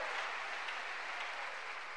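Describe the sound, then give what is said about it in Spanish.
Church audience applause, a soft, continuous hiss of many hands clapping at an even level with no break. “¿Cuánto le dan un aplauso a esa misericordia de Dios?”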